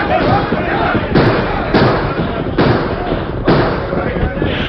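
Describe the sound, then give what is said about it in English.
Gunfire in a shootout between outlaws and a ring of armed men: a few sharp, loud bangs burst out over a continuous noisy din of commotion. “Then, surprised and desperate, the Gila Kid and his men opened fire.”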